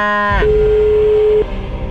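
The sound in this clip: A cow moos once, loud and low, the call dipping in pitch at the start before settling into a steady held tone for about a second and then stopping abruptly.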